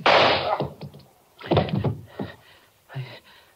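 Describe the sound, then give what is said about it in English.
A gunshot in a radio drama struggle: a loud, sharp burst opens, then several duller thumps and knocks follow at uneven intervals, fading between them. “He's dead. I had to shoot him. I had to.”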